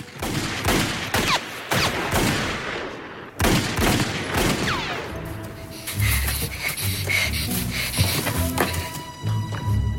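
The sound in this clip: Several sharp gunshots crack out irregularly over the first few seconds as a shooter fires from a hayloft in a stable. Rumbling and clattering noise continues afterward.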